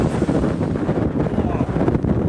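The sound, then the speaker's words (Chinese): Strong gale blowing across open land near a windbreak forest of pine and poplar, a steady roaring, full-bodied rush of wind with buffeting on the microphone throughout. “采访过程中，一场大风天气让记者直观感受到了有林和无林的区别。”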